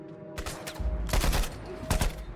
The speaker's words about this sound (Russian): Стреляет в окно, ближайший душман падает. Остальные прячутся за валунами.